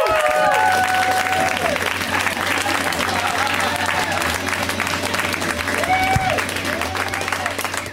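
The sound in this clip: An audience applauds a comedian at a stand-up show with steady, dense clapping that runs throughout, and a voice cuts in briefly over it.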